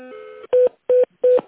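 Telephone tones sound as a call is transferred. A longer steady electronic tone is followed by three short, loud beeps at even intervals, all at the same mid pitch, with brief silences between them.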